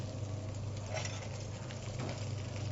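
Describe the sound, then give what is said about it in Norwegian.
King crab sizzles in hot virgin olive oil with garlic, ginger and chili, making a steady, even frying hiss over a low hum with no voices. “Panna er varm. Heller på en eh, virgin olivenolje, som jeg veit tåler en veldig god varme. Hvitløk, ingefær, chili. Sette på kongekrabba.”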